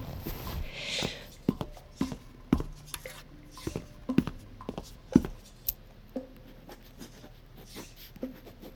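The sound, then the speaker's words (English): A pen writes down a phone number: faint scratchy strokes mixed with many short, sharp taps and clicks, spaced irregularly. “Do you have something to write a number down with? Yes. Let me get a pen.”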